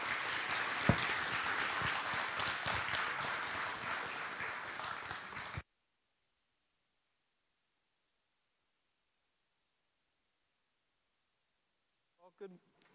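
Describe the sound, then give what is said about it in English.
A church audience applauds to welcome a pastor, giving a steady, dense burst of clapping for about five seconds. It cuts off into silence, and a brief voice is heard at the end. “And so if you could give a warm welcome to Pastor Sean Nolan.”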